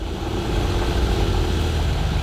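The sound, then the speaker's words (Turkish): A car engine idles roughly, as if choking and in need of an idle adjustment, giving a low, steady, uneven rumble at moderate level with no voices over it. “Çalışıyor ama sesi daha da kötü çıkıyor. Rölanti ayarı yapmamız gerekebilir. Sanki biraz boğuluyor, öyle değil mi?”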